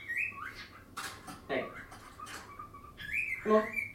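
Bird calls from a small bird: a few high, squeaky chirps and short trills, clearest near the start and again toward the end, over a soft background.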